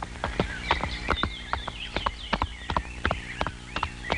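A horse's hooves clip-clop in many quick, sharp strikes with an even trotting rhythm, fairly faint and with no talk over them.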